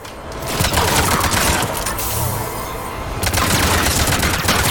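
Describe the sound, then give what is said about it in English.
Enemy gunfire in a video game rattles as a loud, dense barrage of rapid shots. The crackling bursts run almost continuously, easing slightly midway before intensifying again. “Oh, people are shooting at us.”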